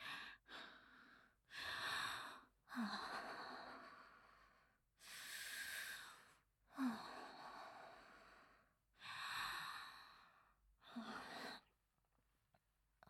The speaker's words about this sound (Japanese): 深呼吸するから少しだけ待ってください。